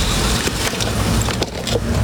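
A car drives along and turns on a street where the turn is not permitted, its broad, steady rumble of road and engine noise filling the whole stretch.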